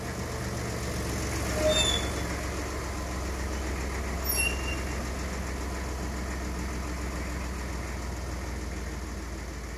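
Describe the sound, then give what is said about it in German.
A truck engine runs steadily as the vehicle rounds a bend and stops behind a car: a low, even rumble that stays fairly quiet throughout, with two brief faint squeaks early on. “Der Laster fuhr um die Kurve und hielt hinter dem Peugeot.”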